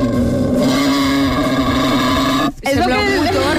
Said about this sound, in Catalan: FX Senglar. D'acord? Sorollet de Senglar per començar el matí.